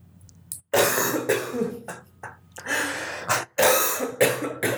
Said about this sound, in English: He's been holding that cough for a good couple of minutes.